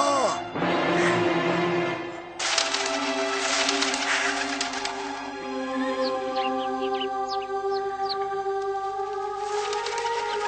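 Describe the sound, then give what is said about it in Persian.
Carrier pigeons coo and chirp in a steady, moderate layer of soft bird calls, with a few sharp, high chirps in the second half. “پرندگان نامه بر را حاضر کنید.”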